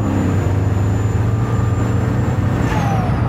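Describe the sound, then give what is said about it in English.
Loud, steady roar of a truck engine held at full throttle at high speed, a continuous deep rumble with broad road and wind noise over it. “So I'm quarter throttle, half throttle, jeez, full throttle.”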